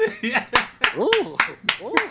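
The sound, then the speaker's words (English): Sharp hand claps, about eight in a steady, brisk rhythm, with voices talking over them throughout. “I got to give a hand clap on that one.”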